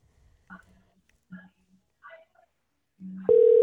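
A telephone call is dialled on a handheld device: a few short, separate electronic blips, then a steady, continuous tone that starts near the end and holds.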